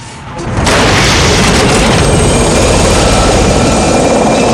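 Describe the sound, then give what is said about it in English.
Explosion in a battle scene with soldiers and a jeep, a sudden heavy boom after a brief quieter lead-in, giving way to a loud, sustained low roar and rumble. “An explosion erupts. Troutman opens fire. Another explosion throws a soldier through the windscreen of a jeep.”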